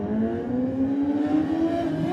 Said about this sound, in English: Colin Croft it is, but he gets away on the 49 bike